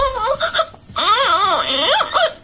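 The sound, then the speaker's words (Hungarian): A voice imitates a baby crying: a few short, choppy wails, then a longer, louder wavering wail whose pitch bends up and down before breaking off. “Tehát így sír a baba.”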